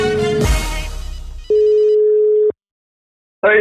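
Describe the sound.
A telephone line rings out while placing a call: after a short noisy burst, a steady one-second ringing tone sounds, then silence, then the next ring begins.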